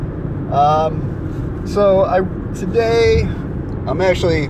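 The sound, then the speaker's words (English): Steady low road and engine drone inside a car while driving back from a work trip, a constant rumble running beneath a person talking throughout. “Technically, I'm on my way back to my office from a work trip, but I got plenty of time on the drive back”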